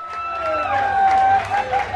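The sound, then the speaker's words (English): Fans scream and cheer in and outside the North End Bar and Grill in Hermosa Beach after the LA Kings' Stanley Cup win. Sustained high shrieks rise above a dense, loud crowd roar that keeps going without a break. “The screaming and cheering was part relief, part joy for fans last night spilling out of the North End Bar and Grill in Hermosa Beach, southwest of downtown L.A.”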